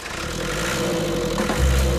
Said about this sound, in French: Il y a quelques boutons en plus, un coup de démarreur. Bingo! Toujours du premier coup.